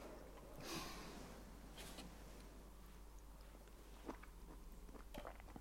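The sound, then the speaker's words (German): Faint chewing of a bite of food with two mushrooms in it: soft, irregular crunching and biting noises with a few sharper clicks, alone and without talk. “Ich, ich esse sogar mit zwei Pilzen.”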